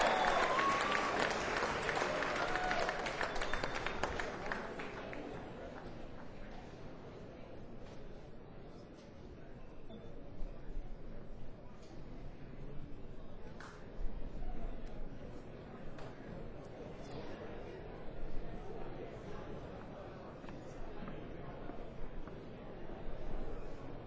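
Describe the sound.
Audience applause welcomes a performer at a live pre-jam concert in Asheville. A loud burst of clapping fills the first few seconds, then it thins into quieter, ongoing crowd noise with voices talking.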